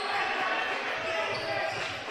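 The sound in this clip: A basketball dribbled on a court during a game between Maryville and Platte Valley, with a rhythm of low, dull bounces under a dense, steady wash of background noise.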